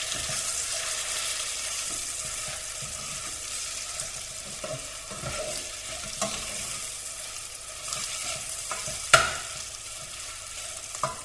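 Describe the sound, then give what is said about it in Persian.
Onions fry in a pan while being stirred, giving a constant sizzling hiss with soft scraping strokes throughout and a couple of sharper knocks near the end. “هم میزنم که پیازمون در حقیقت نخوره. کوچولو کمش میکنم.”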